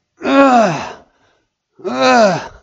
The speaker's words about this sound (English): You're just groaning.